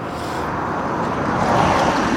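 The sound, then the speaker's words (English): A car passes by outside as a broad, steady rush of road noise that swells slightly toward the end. No voices are heard. “I'm gonna let this car go without pausing.”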